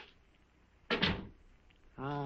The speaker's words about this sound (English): Come inside and close the door.